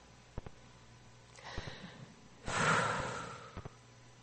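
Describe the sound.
A single breath, a soft, airy hiss of moving air with a few faint clicks around it, quiet and heard alone without talk.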